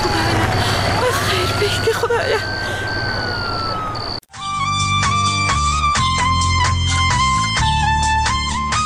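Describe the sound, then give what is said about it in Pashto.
A police car siren wails over traffic rumble and murmuring voices, its tone rising and then holding steady. It cuts off abruptly and music follows. “دا د پولیسو د موټر غږ الله خدایه خیر کې خدای دې خیر کې کومه پیښه نه وي شوې”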